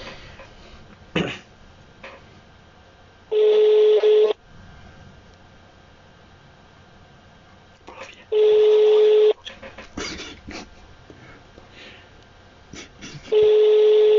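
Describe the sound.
A telephone call ringing out: three steady, one-second ringback tone bursts spaced about five seconds apart. Quiet voices and small noises fill the gaps between rings.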